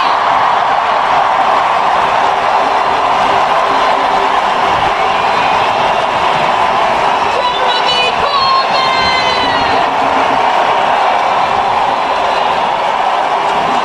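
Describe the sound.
Crowd cheering and roaring in welcome for the Labour Party leader at an anti-Trump protest in the UK, a dense, sustained wash of voices that stays loud throughout.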